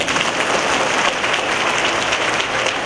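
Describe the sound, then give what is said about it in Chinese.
Applause from the audience at a Buddhist dharma talk, a dense, steady patter of many hands clapping that holds at an even level for about three seconds with no voices over it. “鼓掌啊”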